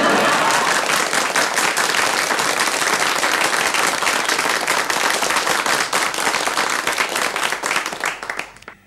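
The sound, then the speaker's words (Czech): Loud, dense applause from an audience in Brno, a steady wash of clapping that holds for most of its length and then tapers off at the end. “Myslím, aby se diváci nenechali mýlit tím velkým potleskem, to jsou sami mý příbuzní tady”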